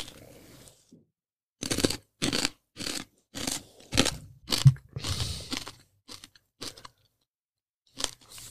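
Someone bites into and chews a crunchy deep-fried snack pressed from lentils, white flour and various spices. Many sharp, brittle crunches arrive in a rhythmic series of bursts separated by short silences, thinning out toward the end.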